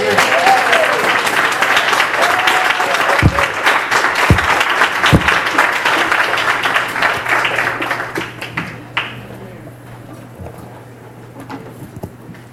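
A church audience applauds in a loud, dense roar of clapping with a few heavy thuds, which thins and fades to a quieter patter near the end.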